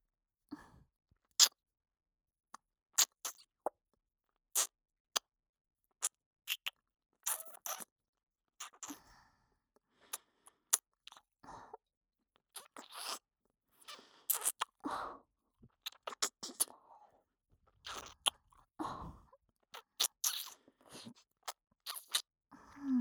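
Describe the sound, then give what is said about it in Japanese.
Wet ear-licking mouth sounds from a Japanese ASMR massage roleplay come as many faint, short clicks and smacks, scattered irregularly with quiet gaps and no talking. “こうしてお耳をなめながら、お客様の全身をマッサージさせていただきます。”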